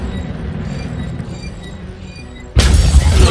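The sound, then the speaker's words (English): A torpedo strikes a ship in a missile-and-shield combat video game: a low rumbling drone gives way to a sudden loud, crashing impact that keeps roaring to the end. “Impact detected. Lower shield failure.”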